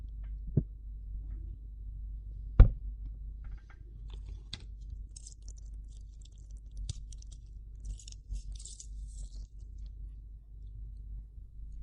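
Chewing on a seafood eggplant dish: faint, irregular crunchy clicks and soft smacking, with one sharper click near the start and a few brief crunchy bursts later, heard alone without talk.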